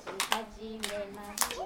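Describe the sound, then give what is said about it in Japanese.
Children at a storytime reading clap their hands: a few sharp, scattered claps at uneven intervals, quiet overall, over a steady voice. “パチパチしないの。 パチパチしないの。”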